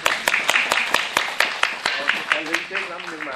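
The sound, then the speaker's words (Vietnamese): Rhythmic clapping from listeners at a Buddhist dharma talk, with sharp claps in a steady, quick beat and a voice talking over them. “Rất là xứng đáng, vỗ tay đi.”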